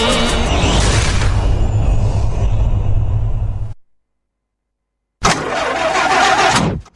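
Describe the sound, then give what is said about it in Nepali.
A broken-down car's engine starting, a loud, rough engine roar that cuts off into silence, then a second burst of engine noise. “होइन कतिन्जेलसम्म यस्तो बिग्रिएको गाडी।”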